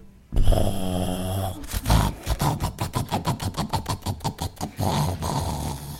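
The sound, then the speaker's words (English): Exaggerated snoring from a character named Goldie asleep in Baby Bear's bed: a long rasping snore, then a quick run of many rattling pulses, ending in another drawn-out snore. “Before she knew it, Goldie had drifted off to her most peaceful sleep in 50 years.”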